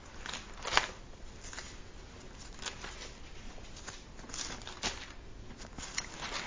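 Pages of a Bible flipped quickly over to Romans, heard as faint papery rustles and a few short, crisp bursts over a quiet hiss, with no voices.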